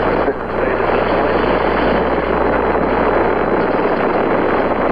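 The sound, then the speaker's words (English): A Saturn V rocket lifts off on up to 7.6 million pounds of thrust, producing a loud, unbroken, rumbling roar that holds steady throughout. “We have commit and we have liftoff at 2:13. The Saturn V building up to 7.6 million pounds of thrust, and it is clear the tower.”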